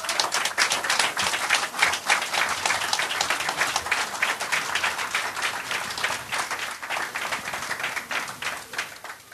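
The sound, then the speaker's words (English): Audience applause welcoming a speaker onto the stage at an evening event: dense, steady clapping from many hands that stays loud and even throughout, with no voices over it. “Please welcome Chris Hedges.”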